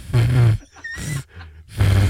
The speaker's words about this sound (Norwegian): Arabisk sandboa. Åh, det har jeg sett. Jeg vet det. Det er bare sånn. Noen slanger sier sånn. Den sier sånn.